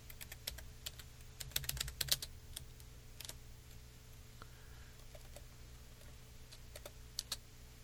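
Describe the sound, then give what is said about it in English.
Typing on a computer keyboard: faint, scattered keystroke clicks with a brief flurry of rapid taps early on, then sparse isolated clicks over a low steady hum. “Hang on a second, let me get it typed in here.”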